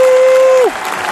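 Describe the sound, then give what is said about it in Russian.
Audience applause from a television studio crowd, a brief, loud burst of dense clapping that carries through the whole short moment. “Все, кончили аплодировать.”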